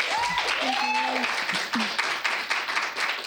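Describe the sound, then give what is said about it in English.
An audience applauds to welcome a guest, a steady wash of clapping that carries a few cheers and voices over it. “So welcome, Nadia Boltz-Weber. Let's give her a hand.”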